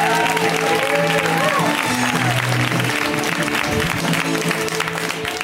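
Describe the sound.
Audience applause for a comedian being brought onstage, a dense, even wash of clapping that stays loud throughout, with a voice speaking over it.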